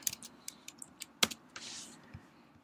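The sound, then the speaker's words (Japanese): Someone types a search keyword on a computer keyboard: a handful of faint, separate key clicks at an uneven pace, followed by a short, soft rustle. “で、こちらに実際調べたいキーワードを入力してください。”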